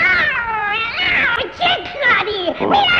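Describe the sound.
A cat meows in a drawn-out, wavering run of high, whiny cries with sliding pitch, loud and continuous for about three seconds.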